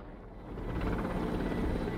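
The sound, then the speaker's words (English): A helicopter flies overhead in a blue sky above a Syrian city, its rotor producing a steady, broad, low rumbling drone that swells slightly and then holds, with no voices. “A helicopter in the blue sky.”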